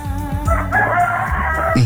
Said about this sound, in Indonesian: Saya kira ayam jangan telepon saya. Langsung suara ayam Mas.